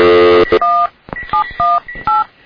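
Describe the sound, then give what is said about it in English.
Keypad tones ring out as a telephone number is dialed. A buzzy sustained tone opens, then a quick, irregular series of loud, short electronic beeps follows. “So now we're going to call Wade Nasanovich to hear about his commute.”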